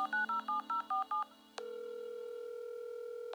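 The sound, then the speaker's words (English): Touch-tone keypad beeps as a number is dialed on a telephone, a quick run of short two-tone beeps. They are followed by a brief pause and then a long, steady call tone. “I dialed her at once.”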